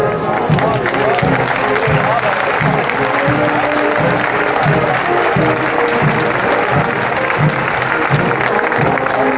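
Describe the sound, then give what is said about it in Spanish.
A crowd applauds a Holy Week procession float during a turn on Holy Monday 2017 in Jaén. The clapping is dense and steady, and a regular low thudding runs beneath it. “aumenta el ritmo del trabajo, el ritmo del movimiento en esta revirada y eso ha hecho levantar los aplausos de los aquí congregados.”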